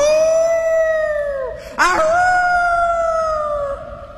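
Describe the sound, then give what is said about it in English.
A dog howls outside in two long, sustained, tonal cries separated by a brief gap, each holding a fairly steady pitch that sags slightly as it ends, fairly loud and alone with no talk. “But his dog was still outside, howling and howling.”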